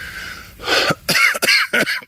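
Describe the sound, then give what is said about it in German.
Coughing from a person with a cold: a few short, harsh bursts in quick succession, fairly loud and with no talk around them. “Entschuldigung, es fängt auch noch der Husten an. Ich habe mich verkühlt.”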